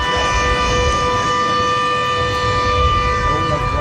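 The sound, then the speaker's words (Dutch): Shark alarm siren at a beach sounds a loud, steady, unwavering tone rich in harmonics. It holds continuously from start to end over a rough, noisy background. “Zo klonk het haaienalarm dat een paar weken terug hier te horen was”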